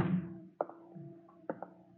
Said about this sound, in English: I'll see that the window is closed, Mrs. Webb.